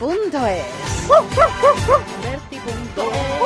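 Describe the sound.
A small dog barks in high, yapping yips, with four quick ones in a row mid-clip and more near the end, mixed with whiny, sliding whimper-like tones.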